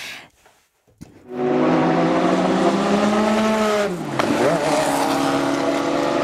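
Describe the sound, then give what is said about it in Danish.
Race cars at the 24-hour endurance race at Le Mans: after a quiet opening, a loud, high engine roar bursts in and holds. Its pitch drops sharply midway, then climbs and steadies, with tire noise mixed in. “Den her lyd blandet med duften af brændt gummi og benzin i sommervarmen, så taler vi altså Le Mans.”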